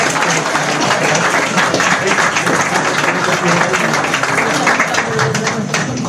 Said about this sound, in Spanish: Un aplauso grande, por favor, para José María.